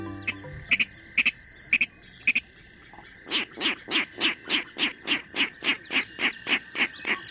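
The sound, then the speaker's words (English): A Virginia rail calls in a marsh, giving a few sharp, spaced clicks and then a long, even run of loud, rapid grunting oinks at a regular rhythm. “Today we're standing on a boardwalk overlooking a marsh. These clicks and oinks tell us a Virginia rail is close by.”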